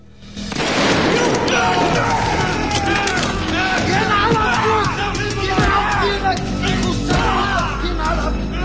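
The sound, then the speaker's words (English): Machine gun fire as Navy SEALs storm through windows and doors in a film raid on henchmen and guards: loud, continuous bursts and crashes over a din of shouting voices, beginning abruptly. “Five Navy SEALs burst in through the windows and doors and advance in a line, spraying the henchmen and the guards with machine gun fire.”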